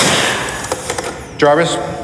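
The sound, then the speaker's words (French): A short radio jingle announces a music break. A few soft thumps lead into a bright, harmonically rich vocal-like burst near the end, loud and brief. “drop my needle. Jarvis Drop My Needle, c'est un des jingles qui n'a pas changé parce qu'on l'aime beaucoup”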